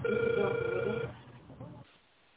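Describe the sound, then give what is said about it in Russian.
Telephone ringing tone on an outgoing call: one steady electronic ring burst lasting about a second, narrow and line-filtered, then dropping to quiet line noise. “Пока что абонент не отвечает. Пока я звоню дальше.”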